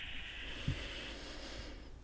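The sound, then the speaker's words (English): A slow, deep breath in during a guided tapping exercise: a soft, steady, airy hiss held for most of the moment before fading out near the end. “And then just take a deep breath in.”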